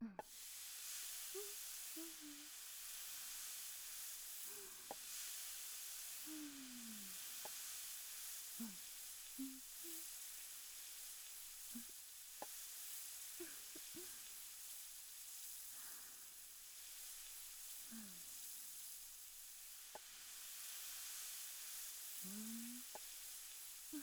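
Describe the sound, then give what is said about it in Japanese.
Vegetables, starting with green peppers, sizzle on a grill in a steady, bright hiss that runs the whole time, with scattered faint clicks and short squeaky chirps over it. “これでいっぱい焼きますよ。まずはピーマンから。”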